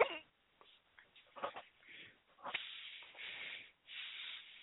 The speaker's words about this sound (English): yes, I have the hiccups, and no, I have not been drinking.